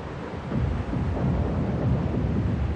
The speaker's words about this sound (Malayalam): ഭയങ്കര കൊടുങ്കാറ്റുണ്ടായി ഇടിയും മിന്നലും ഉണ്ടായി മഴയും തുടങ്ങി